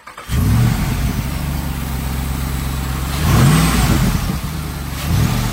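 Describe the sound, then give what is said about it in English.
A 2022 Jeep Wrangler Rubicon 392 engine revs with a loud, steady low rumble. It surges louder around the middle, settles back, then gives another brief rise near the end. “He brings us the new Jeep Rubicon, and you got to check this thing out, man. It's sick.”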